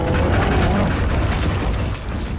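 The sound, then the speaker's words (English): A giant's roar from a fantasy TV battle scene, the enormous mammoth-riding giant draped in bones: a loud, deep, continuous rumbling roar with heavy low-end weight that holds steady, then eases slightly near the end. “that roar and those footsteps belong to Mag the Mighty, the enormous mammoth-riding giant draped in bones.”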